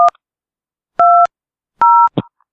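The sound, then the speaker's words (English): Touch-tone beeps from dialing a three-digit room extension on a motel phone line: three two-pitch tones, the first cut short and the next two longer, followed by a brief, faint click. “If you know the 3-digit extension number of the room, dial it now.”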